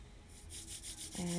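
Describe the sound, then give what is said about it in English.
Hands rubbing briskly together to warm them: a quick, even series of soft, dry swishing strokes, close and quiet. “Exhaling, rubbing the hands nice and hot.”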